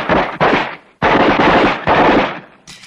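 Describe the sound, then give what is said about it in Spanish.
Gunfire sound effect for a radio drama: loud, rapid machine-gun bursts in a few volleys in quick succession, each dying away just before the next begins, with no voices. “Ahí está. Disparen. Disparen.”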